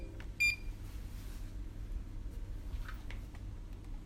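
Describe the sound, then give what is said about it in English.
A blood pressure machine at a health center in Abu Dhabi gives a single short electronic beep early on. A steady low hum runs underneath, with faint chirps later. “That's the sound of a blood pressure machine.”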